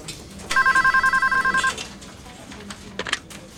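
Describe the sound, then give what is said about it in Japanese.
An office telephone rings with an incoming call: one burst of rapid, trilling electronic ringing lasts just over a second, then fades into faint background noise and a few soft clicks. “小李打来了电话。电话转接到小野处。”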